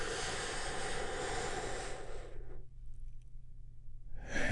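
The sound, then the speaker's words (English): A slow, deep breath drawn in and let out, a soft airy hiss lasting a couple of seconds before easing to near quiet, with a faint low hum underneath and another breath starting at the end. “We get things started by taking a big, deep healing breath all together.”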